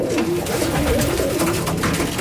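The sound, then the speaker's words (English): Hundreds of pigeons flock to thrown grain, their cooing forming a steady, dense, loud murmur throughout. “Hundreds of the birds swirl in front of us, a seeding frenzy.”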